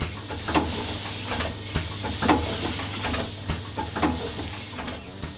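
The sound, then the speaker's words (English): Salt spreaders hiss overhead in a steady, spray-like wash of noise over a low mechanical hum, with a few brief surges throughout. “I would strongly advise you close your eyes while passing under the salt spreaders.”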